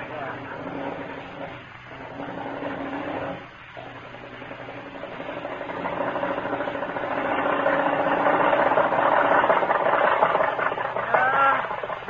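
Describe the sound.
A car engine runs steadily while driving in hot weather, a low, continuous motor drone that hums on under people talking.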